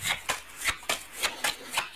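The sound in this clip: Playing cards being handled, a steady series of crisp papery slaps and riffles at a regular beat, moderately quiet, with no talk over them.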